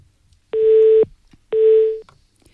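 Telephone line tones from a dropped call: two loud, evenly spaced electronic beeps at the same steady mid pitch, each about half a second long, with near silence between them.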